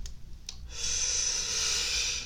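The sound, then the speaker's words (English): A deep breath drawn to stall for time. A couple of short sniffs come first, then a long, airy, sustained rush of breath fills the rest. “I was just taking a deep breath because I was trying to stall some time”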